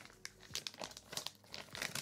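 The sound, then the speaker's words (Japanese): A crinkly plastic package is torn and opened, giving faint, irregular bursts of crackling and crumpling with a few sharper ripping sounds, all without any talking. “早速、アマネの穴を開封していこうと思うわ。”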